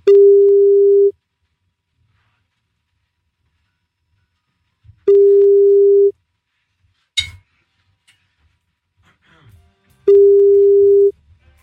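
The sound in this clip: Ringing tone on an outgoing telephone call: three steady, mid-pitched tones of about a second each, evenly spaced by roughly four-second silences, with a brief clatter between the second and third tone.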